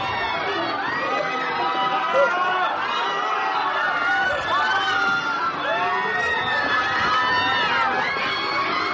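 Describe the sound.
A crowd flees in panic from a stabbing in a scene from the 2017 black comedy film Abracadabra, with a dense, continuous wash of shouting, screaming and overlapping voices throughout.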